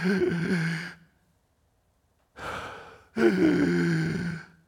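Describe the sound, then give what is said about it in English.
A man's voice imitates the laboured, gasping breaths of a crucified man suffocating from asphyxiation: a few drawn-out, strained, breathy gasps with voiced rasping, separated by a silent pause. “He's drawing in breath. He can barely breathe because the asphyxiation is going on,”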